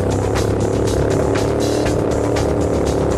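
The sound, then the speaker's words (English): Loud, continuous engine roar of Model T cars racing on a dirt track, a dense rumbling drone with faint rhythmic pulsing throughout and no pauses. “They're up! There he goes! Fast Eddie and the Model T's. There's dirt flying everywhere.”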